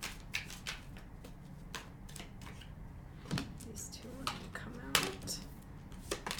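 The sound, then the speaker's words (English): Tarot cards being shuffled and drawn, a busy run of crisp papery flicks and snaps at an uneven pace, with a few sharper slaps standing out above the steady riffling. “So I pulled the Eight of Wands and the Eight of Cups”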